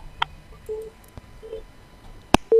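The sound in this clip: Telephone line tones after a caller's line drops on a call-in show: two short, faint mid-pitched beeps amid light clicks, then a sharp click and a louder steady tone that holds to the end.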